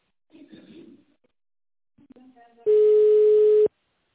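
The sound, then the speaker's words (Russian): A single steady telephone ringback tone plays for about a second as a call is transferred to a duty manager. Brief, quiet speech comes before it. “Звонок переводится на дежурного менеджера.”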